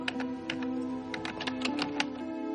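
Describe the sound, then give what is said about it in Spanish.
A journalist typing steadily on a keyboard at his newsroom cubicle desk. The key clicks are rapid and irregular, over a continuous low tonal hum. “El periodista, concentrado, sigue escribiendo y flexiona la mano.”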